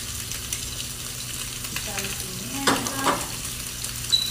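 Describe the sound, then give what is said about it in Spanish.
Meat sizzling in a preheated frying pan with a little oil, a steady soft hiss of frying with a few brief stirring clinks near the middle, with no talking. “Vamos a echar la carne en el otro sartén precaliente también, otro poquito de aceite”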